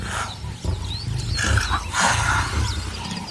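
Lions roaring and growling around a leopard trapped up a tree, deep rumbling roars that rise and fall in several overlapping swells, loud and continuous throughout with no talk.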